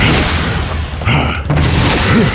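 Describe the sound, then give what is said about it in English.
A grenade explosion in a wooded area, heard as a loud, heavy, rumbling blast of noise that stays dense and sustained throughout, with no distinct separate bursts. “they're just tossing grenades, hoping to rouse us.”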